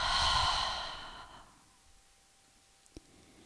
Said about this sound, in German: Halte deinen Atem kurz oben. Dann öffne deinen Mund und atme alles wieder aus.